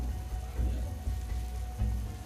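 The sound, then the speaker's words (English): Boiling hot syrup poured over freshly made baklava gives a steady, even sizzling and crackling hiss, fairly quiet and continuous, with a low background rumble. “Finally, the boiling hot syrup. And then this, the team calls it the dance of the baklava.”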